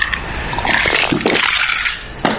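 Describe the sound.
Liquid sloshing and glassy clinking as a glass of soju, lemon and soda cocktail is shaken, heard as short, loud, splashy bursts with a final rattle near the end, with no talk.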